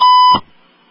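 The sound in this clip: A single steady electronic beep, about a third of a second long, signals that a caller is on the line and ends with a short soft click.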